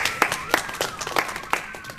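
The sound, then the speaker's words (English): Applause from an audience for stage sets, a steady patter of many hands clapping at moderate loudness with no talk. “And maybe there should be some applause for the spectacular sets.”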